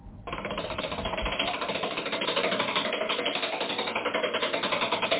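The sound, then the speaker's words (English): A prize wheel spins on a quiz show, giving off a rapid, even ratcheting clatter of mechanical clicks that begins after a brief moment and runs steadily for several seconds. “So as I run from the vehicle to the wheel, spin.”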